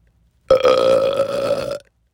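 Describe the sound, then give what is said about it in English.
A person burps on purpose: a single loud, croaking belch that starts abruptly, holds for over a second with a rough, steady tone, then cuts off, heard alone with no talk. “So like a lot of young boys, I taught myself to burp on command.”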